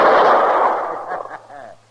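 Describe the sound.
A single loud revolver shot fired at a bottle bursts out at once and decays slowly over about a second, followed by a voice as the ring fades.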